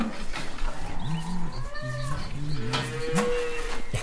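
Farm animals call in a barn in the morning, cows among them: a few short, low bleat-like calls with higher tonal calls above them.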